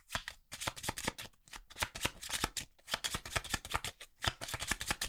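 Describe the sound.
Playing cards being shuffled by hand during a tabletop card game, a quiet run of many rapid, crisp flicks and riffling bursts with short pauses between them.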